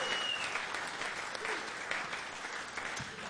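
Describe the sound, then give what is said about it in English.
Audience applause at the end of a live show, a steady, dense patter of many hands clapping that holds at an even, moderate level throughout. “I bet a big hand for Myron.”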